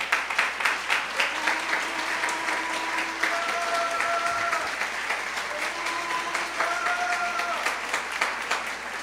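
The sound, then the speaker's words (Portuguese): Congregation applauding in a church service: many hands clapping in a steady, dense patter that lasts throughout, with sustained musical tones beneath. “Você pode aplaudir o Senhor,”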